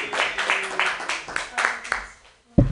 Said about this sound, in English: Your next comedian. Put your hands together for Perry Borders.